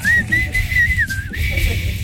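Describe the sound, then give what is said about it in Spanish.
A person whistles a string of clear, connected notes, loud and mostly steady in pitch, with small dips between the notes. “Bueno, no, sí, chiflo y chiflo y chiflo.”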